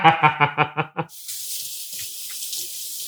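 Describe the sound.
Water runs from a tap as hands are washed, making a steady, bright hiss after a short burst of voice at the start.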